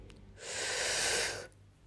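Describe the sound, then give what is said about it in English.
One long, deep breath in during a guided breathing exercise, an airy rushing inhale that swells and holds for about a second before stopping, heard alone. “I'd like to end this with a deep breath. Breathe in.”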